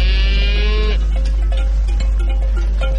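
Cattle low on a breeding farm of about 200 animals grazing on a hillside. A long, full moo opens, followed by shorter, fainter calls over a steady low hum.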